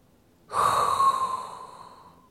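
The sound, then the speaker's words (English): One long, breathy, hot inhalation drawn close to a microphone. It starts abruptly, holds with a slight tonal hiss, and fades away over about two seconds, with no talk. “there is only one thing left to do. And that is inhale a hot breath”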